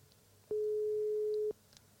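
A single steady mid-pitched telephone tone, the ringing tone of an outgoing call, lasting about one second and fairly loud against a faint, quiet background.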